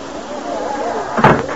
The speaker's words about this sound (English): Say, how about closing the door? Is the door open? Of course it is.